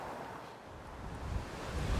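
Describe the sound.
Ocean surf rolls in a low continuous rush on the South Korean coast, mixed with wind buffeting the microphone, faint overall and swelling slightly toward the end.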